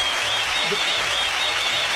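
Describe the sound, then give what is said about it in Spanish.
Applause sound effect, a steady wash of crowd clapping at even volume for the whole stretch, with a faint high tone running through it. “¿Tienen los aplausos ahí? Sí, ¿cómo no va a tener los aplausos?”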